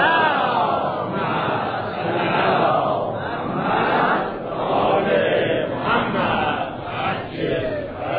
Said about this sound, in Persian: خب حالا تولد امام کاظم را تبریک میگیم، بریم سراغ بحثی که داشتیم. یه صلوات بفرستید.